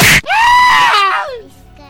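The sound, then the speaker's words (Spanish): A loud, harsh human scream: a single sustained cry lasting about a second that drops sharply in pitch at its end, preceded by a brief burst of noise. “gritaste muy feo”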